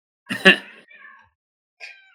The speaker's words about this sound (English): So, if you hear that in the background, that was a small cat.